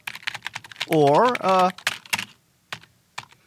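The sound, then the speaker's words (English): Typing on a computer keyboard, with rapid, irregular clicking keystrokes broken by short pauses. A brief voice-like tone sounds partway through. “Next time you're at your computer keyboard, stop for a moment and notice the way you type. Not the words, but the pattern.”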